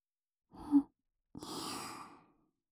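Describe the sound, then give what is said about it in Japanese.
Soft breath blown into an ear, close and intimate: a short gentle puff, then after a pause a longer, airy exhale that fades away, with no talking. “じゃあ、今度は、反対側の耳も、ふうふうしちゃいますね。”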